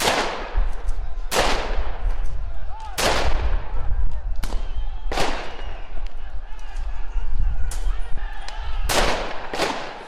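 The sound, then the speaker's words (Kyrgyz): Rubber bullets are fired at a crowd of protesters outside a regional police headquarters where tear gas is also used: about eight sharp, loud bangs at irregular intervals over a constant roar of crowd noise. “Ал жерден элге карай көздөн жаш агызуучу газ колдонуп, желим октор атылды.”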